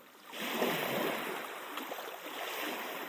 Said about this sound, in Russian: с берега доносился плеск волн